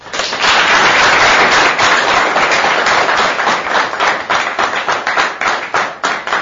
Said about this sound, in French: Nous avons l'honneur de recevoir dans ce centre, et je crois que c'est une grande première pour ce centre ici, l'inspecteur général avec sa suite. Est-ce que vous pouvez acclamer?